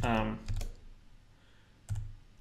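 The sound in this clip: Sharp mouse clicks on an Add button while editing a script: a few quick, dry clicks, one pair early and another click later, with a voice briefly heard at the start.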